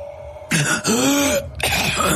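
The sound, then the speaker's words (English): A man clears his throat in a gruff, rasping series of a few harsh bursts, the middle one drawn out and groaning, with no talk over it. “he turned to the rider and cleared his throat”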